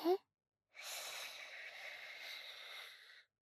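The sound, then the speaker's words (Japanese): A long, slow deep inhale during a guided relaxation before sleep: a faint, steady breathy hiss lasting about two and a half seconds, after a brief vocal sound at the very start. “ほらほら深呼吸して吸って”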